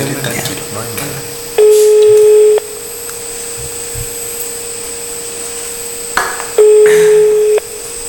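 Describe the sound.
Ringing tone on a phone line while calling someone: two steady, one-second tones about five seconds apart, heard over a constant mechanical hum with voices underneath.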